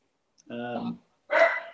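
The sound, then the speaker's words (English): Dogs barking at home: two short, fairly loud barks separated by a brief pause, with nothing else in between. “You can hear my dogs barking, I guess. Is it your dog?”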